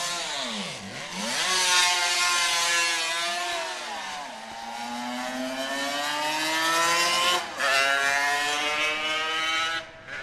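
A 1976 Suzuki RG500 racing motorcycle, its loud, buzzing engine note sweeping up and down in pitch through several revs and gear changes, with brief dips in level and no voices.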